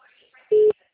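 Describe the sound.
Telephone ringback tone heard while a call connects: one short, steady, mid-pitched electronic beep, loud and clean, standing alone after faint low murmurs.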